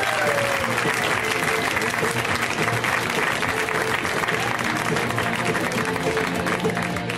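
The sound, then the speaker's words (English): Audience applause greets comedian Greg Proops at a comedy show, a dense, steady roar of clapping that holds evenly for about seven seconds with no words spoken. “Let's hear it right now from Mr. Greg Proops, guys. Give it up for Greg Proops.”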